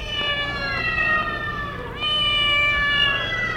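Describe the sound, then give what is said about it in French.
Black cat meowing: two long, loud, drawn-out cries, each sliding slowly downward in pitch, over low background noise with no talk. “Le chat l'a giflé et se sauve. Sale bête !”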